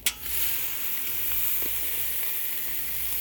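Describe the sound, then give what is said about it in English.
Sizzling of a thin piece of food searing over coals banked high: a steady, moderately quiet hiss that follows a short burst at the start and carries on alone. “Should be much hotter this time. I have the coals way higher. So hopefully we'll actually get a sear going. Here comes the sear.”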